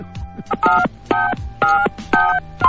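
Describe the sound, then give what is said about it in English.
Telephone keypad dialing tones: five loud, evenly spaced beeps in a steady rhythm, each lasting about a quarter second, separated by short quiet gaps. “All right, hang on. Let me call his number right quick.”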